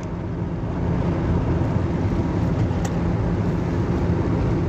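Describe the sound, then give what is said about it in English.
Steady road and engine rumble from a car driving on the highway, a dense, unbroken low roar that holds at an even loudness throughout with no voices. “So, once I get off on the road and start doing my thing, or start driving and everything, get on the highway, that's when I normally hit record.”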